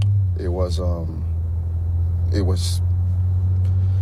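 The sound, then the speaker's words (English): A steady low rumble fills the interior of a moving car where an interview is being recorded. The constant droning hum runs beneath a person talking. “It was logical. They were in a car. That's what you hear.”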